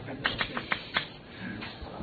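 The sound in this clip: Writing on a board during a mathematics lecture: five crisp, scratchy strokes in quick succession, then softer, fainter scraping, all fairly quiet.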